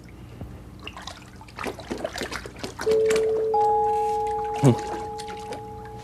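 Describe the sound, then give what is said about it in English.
Water splashes and trickles as Fred Rogers soaks his feet in a tub on his porch. A few sloshes are followed by steady sustained tones and one brief sliding tone. “But in that last episode, he showed up at Mr. Rogers' porch, just as Fred was starting to soak his feet.”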